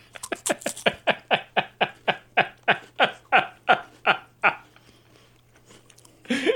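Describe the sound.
Crunchy chewing of a cracker topped with red pepper flakes: many loud, crisp crunches in a steady, even rhythm, then a quiet stretch.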